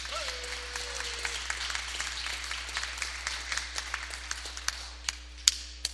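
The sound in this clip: Applause welcoming a town mayor and city officials in a state House legislative chamber: steady, dense clapping from many hands for about six seconds, with a few sharper, louder claps standing out near the end.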